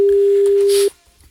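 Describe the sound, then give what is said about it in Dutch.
A single steady ringback tone plays as a call goes out to a Dutch fish trade office: one sustained mid-pitched beep lasting under a second, then cutting off into near silence. “gaan we bellen van het Nederlands Visbureau”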